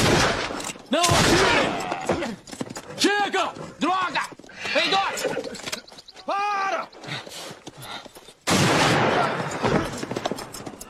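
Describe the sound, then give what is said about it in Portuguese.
Gunfire in a scene from a dubbed film: a few sharp, loud blasts break through shouting voices. “Pare de atirar!”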